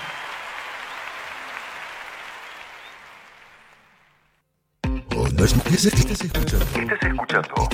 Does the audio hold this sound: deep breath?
no